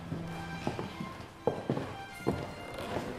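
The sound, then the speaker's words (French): Footsteps on a wrought-iron and stone staircase in a historic townhouse museum: a few separate, hard-edged steps with gaps between them. “Je vous invite maintenant à emprunter l'escalier pour accéder à la partie nord et Louis XVI hein, de cet hôtel particulier.”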